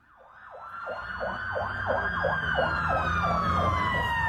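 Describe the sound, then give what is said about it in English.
Emergency service sirens wail through Belfast during a night of rioting, a rapid, repeating up-and-down sweep over steady higher tones. They grow louder in the first second, then hold strong with a low rumble beneath. “The sound of emergency services in Northern Ireland's biggest city, Belfast, responding to another night of mobs on the rampage.”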